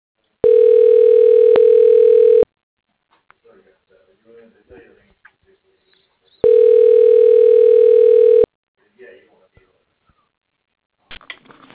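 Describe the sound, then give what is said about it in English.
Telephone ringback tone while an extension is dialed through a phone menu: two steady, even-pitched tones about two seconds long, separated by a longer gap of near silence with faint clicks and rustles. “Dialing Preston West, extension 204.”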